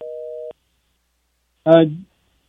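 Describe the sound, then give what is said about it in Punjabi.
Telephone busy tone on a dropped call line during a phone-in: one steady half-second beep, then a pause and a brief burst of a voice. “ਮੈਨੂੰ ਲੱਗਦਾ ਸ਼ਾਇਦ ਜਿਹੜੀ line drop ਹੋ ਗਈ ਹੈ।”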